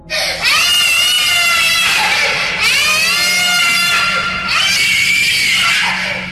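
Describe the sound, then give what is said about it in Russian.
A child's piercing scream: three long, shrill, high-pitched shrieks in a row, each loud and sustained with only short breaks between them. “Ответом на вопрос стал пронзительный крик.”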